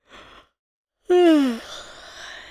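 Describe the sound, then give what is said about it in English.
A person gives a tired yawn: a brief breathy sound, a pause, then a loud voiced groan that slides downward in pitch and trails off into a soft, breathy exhale. “I yawned and replied,”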